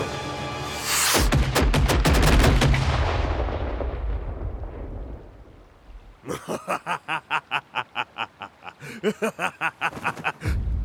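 Gunfire opens with one heavy, booming blast that rumbles and slowly fades over several seconds. Two rapid bursts of sharp, evenly spaced shots follow after a brief lull.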